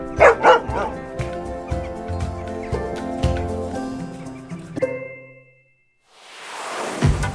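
A dog barks in a few sharp, loud bursts and yips. A stretch of steady tonal sound follows, then it falls quiet before a soft hiss rises at the end.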